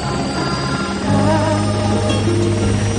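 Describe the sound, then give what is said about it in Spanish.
A helicopter takes off, its steady rotor and turbine drone carrying a humming whine that swells louder after about a second and then holds steady. “El helicóptero inicia el vuelo”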